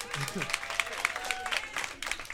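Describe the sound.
Live concert audience applauding for a live CD recording, a busy crackle of many hands clapping with voices heard over it.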